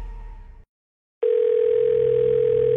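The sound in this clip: A telephone dial tone as a phone call is placed. A brief, different sound fades into silence, then the tone starts abruptly and holds at one steady, loud pitch.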